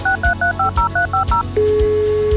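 A string of telephone keypad DTMF tones sounds as a number is dialed: about nine short, evenly spaced dual-pitched beeps in quick rhythm, then a steady continuous tone, with faint low thumps repeating underneath.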